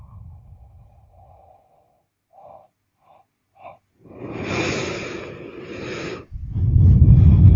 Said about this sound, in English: to be deep and long for one or two or three times. Pulling the belly in and flowing the air out more thoroughly, more deeply than usual.